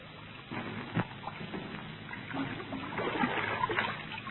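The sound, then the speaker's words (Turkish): Wet footsteps splash through a shallow water puddle, a few uneven sloshing steps with soft trickling and dripping in between, moderately quiet throughout. “Hay Allah, su birikintisi varmış, ayaklarım ıslandı.”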